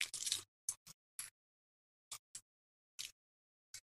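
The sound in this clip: Foil wrappers crinkling as Cadbury Easter eggs are unwrapped: one longer rustle followed by seven short, sharp crackles separated by silence, all faint.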